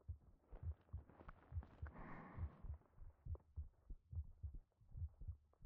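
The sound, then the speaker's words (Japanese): Heartbeat: a steady, regular run of soft, deep thumps throughout, with a brief breathy swell around the middle. “ただ私の心臓の音だけを聞いていて”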